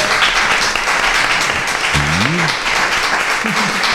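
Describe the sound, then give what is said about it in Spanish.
An audience claps in sustained, dense applause at a rock festival event after a town official is introduced. The clapping stays loud and steady throughout, with a couple of short rising vocal whoops breaking through partway. “Un aplauso para él.”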